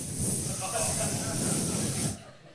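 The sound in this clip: A voice imitates an air mattress leaking air with a steady, breathy hiss, held at even loudness for about two seconds before cutting off abruptly.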